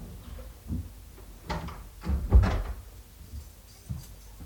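A door being opened, heard as a short series of faint wooden knocks and clunks, the loudest bunched near the middle.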